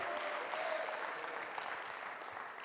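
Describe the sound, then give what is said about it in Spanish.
Applause from a church audience, a steady patter of many hands clapping together, fairly faint and easing slightly toward the end. “Den un aplauso a este Dios maravilloso.”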